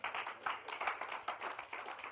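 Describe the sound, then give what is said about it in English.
Faint, steady applause as a church audience claps their hands, with many overlapping claps forming a continuous patter. “Clap for the Lord Jesus.”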